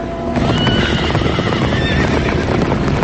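Horses ridden by approaching mounted dragoons neigh and whinny loudly. The high, wavering calls sit over a dense, continuous rumble of movement, with no voices.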